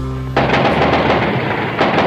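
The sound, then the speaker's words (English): Army troops fire on a plaza in Mexico in 1968, the gunfire breaking out suddenly after a low hum into a loud, dense, continuous roar of shots that keeps going. “The army is here and they're firing. They're letting go with just about everything they have.”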